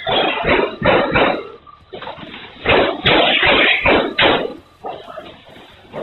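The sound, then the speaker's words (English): Gunfire from a gunman, many rounds fired in rapid loud bursts that come in dense, irregular clusters and barely pause between them. “More than 100 rounds are fired.”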